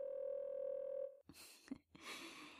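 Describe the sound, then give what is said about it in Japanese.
A Japanese-style telephone ringback tone of an unanswered call: one steady, buzzy tone lasting about a second, followed by a few short noisy rustling sounds. “これちょっと出ないでおこっか。だってコール音聞き続けてると私たちの心変わるんでしょ。”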